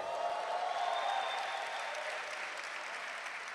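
A church audience applauds during a bilingual sermon, a steady, dense wash of clapping with a faint whistle, fairly quiet and even throughout.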